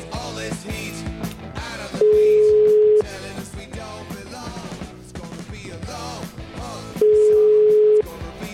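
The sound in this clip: A telephone ringback tone plays while a caller waits for an answer: two steady, one-second beeps at a single mid pitch, several seconds apart, over loud, busy music.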